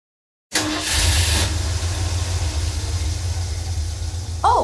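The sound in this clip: A car engine runs on a late-night drive into town, cutting in abruptly after a moment of silence and then holding a steady low rumble.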